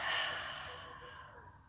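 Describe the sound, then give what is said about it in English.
A single soft breath is let out through an open mouth, a faint airy exhale that fades away. “Feel the breath move through the body. Open the mouth, exhale, let it go.”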